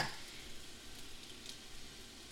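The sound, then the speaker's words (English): Eggs sizzle faintly in a hot pan beside wilted spinach, an even, continuous frying hiss with no distinct cracks. “So the spinach is wilted. And I'm just going to move it over to the side of the pan. And I'm going to crack some eggs.”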